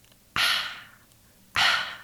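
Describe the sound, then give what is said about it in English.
Two breathy, audible exhales like a loud whisper are made as a somatic warm-up exercise. Each starts sharply and trails off, with a quiet pause between them. “Audible whisper is exhaling with sounds, and it can sound like this.”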